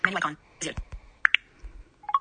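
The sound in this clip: Two short, sharp clicks open the menu in the Golden Mushaf Quran app, set among brief bursts of speech.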